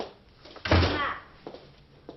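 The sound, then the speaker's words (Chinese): A door being opened in a home: one solid clunk midway through with a brief rattling ring-out, followed by a few faint knocks. “哎，你坐啊，我开门。”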